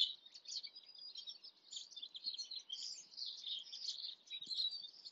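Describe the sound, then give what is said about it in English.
Birds chirping and singing outdoors: many quick, high twittering calls overlap in a continuous, soft chorus with no other sounds. “If you're able to take a little walk outside, spend some time listening to these beautiful bird sounds.”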